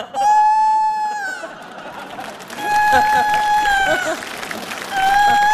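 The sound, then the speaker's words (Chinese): A rooster crows in three long, steady, high-pitched calls, loud over a low murmuring background. “咋还打鸣呢？”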